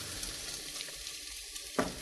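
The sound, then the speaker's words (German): Steady hot-pan sizzle as onions sautéed in butter are added to a creamy dish seasoned with nutmeg. The frying hiss runs throughout, with one sharper, louder burst of sizzling near the end. “Und jetzt nehme ich die Zwiebeln, die ich angeschwitzt habe, schön in ein bisschen Butter.”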